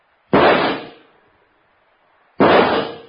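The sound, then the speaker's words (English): Two loud gunshots from a gun, sharp blasts about two seconds apart. The first trails off in a short decaying tail before the second one hits. “You just pulled out your gun and you shot them both. Like this.”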